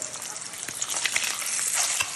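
A fried egg sizzles in a frying pan as it is flipped, a steady crackling hiss that grows louder partway through.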